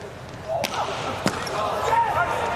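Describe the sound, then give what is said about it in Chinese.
Volleyball being served during a match: two sharp, brief ball strikes over a steady wash of crowd noise and commentary. “小区三号地面发球”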